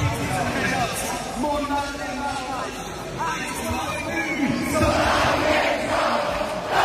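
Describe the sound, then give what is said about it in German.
A crowd of about ten thousand sings a song together inside an arena in Zurich, a loud, dense mass of voices that holds steady throughout and swells slightly toward the end. “Schon eindrücklich, wenn das ganze Hallenstadion so einen Song singt.”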